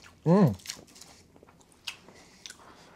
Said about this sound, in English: So, potatoes, peanut butter, and sugar. Mainly sugar. Have a taste.